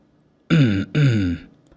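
A dry throat-clearing cough from an old sect master: two short, voiced bursts in quick succession, alone and fairly loud.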